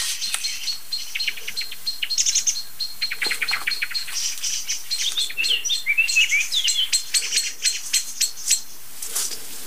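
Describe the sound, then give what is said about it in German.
A blackbird singing among many other bird calls: rapid high chirps, tweets and trills run almost without pause, lively and fairly loud, with no voices. “Oh, jetzt kommt noch Amsel dazu.”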